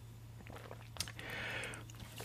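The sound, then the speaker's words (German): A quick sip from a drink: a small click, then a short, soft slurp. The mouth sounds are quiet, over a faint steady hum. “So, mal kurz einen Schluck trinken.”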